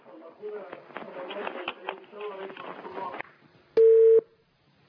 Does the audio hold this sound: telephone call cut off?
yes